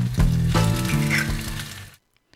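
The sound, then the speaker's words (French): A short recipe jingle for a cooking segment plays for about two seconds, with a few stepped musical notes over a bright, sizzling hiss, then stops abruptly into silence. “je vais même mettre le tout petit jingle recette”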